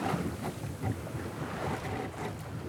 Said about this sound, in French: j'aime bien effectivement prendre, d'avoir ma petite collection de cargos que je rencontre en mer. Il est plus petit que le premier euh, qu'on a croisé.